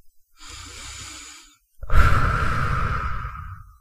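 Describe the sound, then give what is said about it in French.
A person blows out air in two long breaths: a soft, steady, airy one, a short pause, then a louder, rougher gust that runs to the end, with no talk. “Alors aujourd'hui, je vais souffler sur ce nuage pour toi.”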